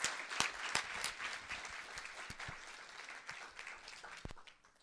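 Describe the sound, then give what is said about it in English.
An audience applauds to welcome a speaker: dense, steady clapping with a few sharper claps standing out, fairly quiet overall and tapering off at the end. “Everyone, please give Mr. Lays a very warm welcome.”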